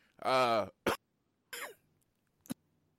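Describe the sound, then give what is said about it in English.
A person's brief coughing fit: a strained, voiced throaty burst followed by three shorter, sharp coughs separated by short silences. “that was a bit of a coughing fit”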